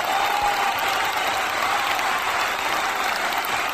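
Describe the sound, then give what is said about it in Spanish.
Applause from a crowd rolls on steadily, a dense, hissing mass of clapping hands that holds a constant loudness from start to finish, with no voices breaking through. “Bravo, Fuerte el aplauso.”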